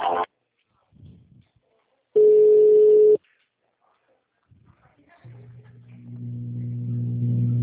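Telephone line tones play while a customer-service call is being transferred. One steady beep lasts about a second, then after a quiet gap a low, continuous buzzing ring-tone sets in and grows slightly louder.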